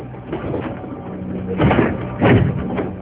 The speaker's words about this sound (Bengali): এত জোরে জোরে দরজা ধাক্কাচ্ছ কেন?